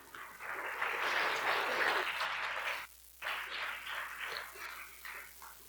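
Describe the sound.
A church audience at Helix Bible Church applauds warmly to welcome a visiting pastor. The dense, steady clapping drops off briefly midway, then resumes a little softer and gradually tapers.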